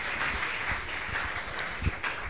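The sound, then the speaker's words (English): An audience claps their hands for Jesus during a church service. Steady, muffled clapping continues throughout, with a few heavier thumps standing out. “Clap your two hands together for Jesus.”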